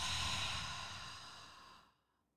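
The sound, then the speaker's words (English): A deep breath through the nose in a breathing exercise: one long, airy, hissing breath, strong at first, then gradually tapering before dropping to silence. “Taking a deep breath in through the nose. Holding at the top and letting it all go.”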